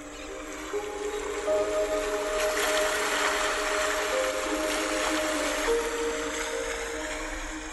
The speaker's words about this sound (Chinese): 感觉到了吗？河水开始变得澎湃